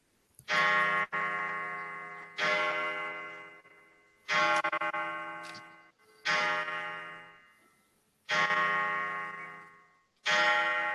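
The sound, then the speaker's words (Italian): A pendulum clock at home chimes six bright, ringing bell strikes, spaced about two seconds apart. Each strike decays slowly before the next one sounds. “abbiamo anche una campanella. Scusate, è colpa mia. No, non è colpa, è un merito. È il pendolo di casa. Puntualissimo, è puntualissimo.”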